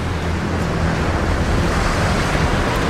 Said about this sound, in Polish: O, ale tu wieje.